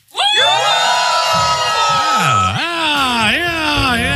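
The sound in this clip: Studio guests cheer, whoop and shout on request, a loud burst of many voices with prominent sustained calls that swoop down and back up in pitch.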